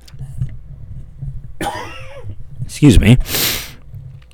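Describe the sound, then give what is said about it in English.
A cough bursts out loudly, followed by a short breathy noise, with a low background murmur before it. “I don't have a cough button over here.”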